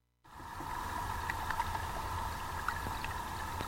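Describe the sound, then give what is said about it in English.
Underwater sound from the bottom of a pond starts abruptly after a brief silence. A steady low hum carries faint scattered ticks and soft clicking pops. “We're listening to Zach Poff's Pond Station, available at wavefarm.org/listen. If you click on the Listen button on any WGXC.org page, you can hear the sounds from the bottom of one of the Wave”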